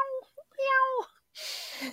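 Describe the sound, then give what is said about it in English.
A cell phone ringtone made of recorded cat meows: a short meow, a brief chirp, then a longer drawn-out meow, followed by a rough noisy burst. “Sorry if you heard some meowing. That was my mom calling me on my cell phone. That's her ringtone.”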